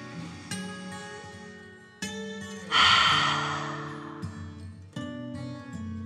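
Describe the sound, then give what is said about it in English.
A slow breath in and out during a children's bedtime guided meditation. One airy breath swells and then fades gradually over soft, gentle music with sustained tones. “Let them relax back down and breathe in and out.”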